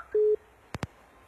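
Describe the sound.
A telephone busy tone follows a dropped call: one short, steady low beep, then two sharp clicks close together, all faint and alone.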